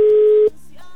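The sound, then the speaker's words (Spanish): A ringback tone on a telephone line while a call waits unanswered: one loud, steady, even tone holds for about half a second and then cuts off, leaving faint low line noise. “Hay que esperar a que tome la llamada.”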